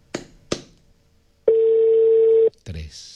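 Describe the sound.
A steady, mid-pitched telephone tone plays while a call is placed. It holds evenly for about a second and is preceded by two sharp clicks, then is followed by a brief noisy burst.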